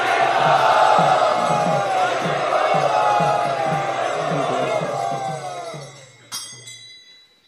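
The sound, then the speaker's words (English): An audience at a kirtan chants loudly in welcome, a dense wall of massed voices over a steady rhythmic pulse that gradually fades out and ends with one short, sharp sound. “So let us welcome His Holiness Kadambakanand Maharaj by loudly chanting.”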